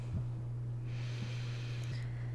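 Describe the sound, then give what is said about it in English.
A slow, deep breath drawn in through the nose, heard as a soft, airy hiss that starts after a short pause and continues to the end, faint over a low, steady electrical hum. “let's start with taking a few deep breaths. So when you're ready, in through the nose”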